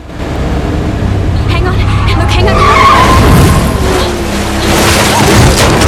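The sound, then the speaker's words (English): Tires skid and an engine roars as a car accelerates hard during a road chase, a loud, continuous rush of noise that lasts the whole clip. “she shoots past and slams down on the accelerator.”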